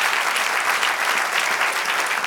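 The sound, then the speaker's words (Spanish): A church audience claps in a dense, steady round of applause that holds at an even level for the whole stretch. “Que dé un aplauso al Señor.”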